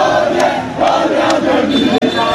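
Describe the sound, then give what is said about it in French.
French national football team supporters cheering in the street as a red fire truck pushes through the crowd: a loud, dense, continuous roar of many voices without a break. “celle de ces pompiers hilars dans leur camion rouge au moment de fendre la foule acclamée par les supporters des Bleus.”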